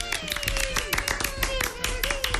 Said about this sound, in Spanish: Aplausos, por favor, aplausos,